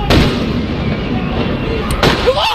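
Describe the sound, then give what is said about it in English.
Two sharp cracks as police fire rubber bullets at protesters in central Los Angeles, one near the start and one near the end, each a loud burst over a steady, noisy background. “The LAPD moving in on horseback, firing rubber bullets at protesters, moving them on through the heart of LA.”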